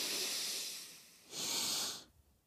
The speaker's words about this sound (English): And we're going to breathe deep.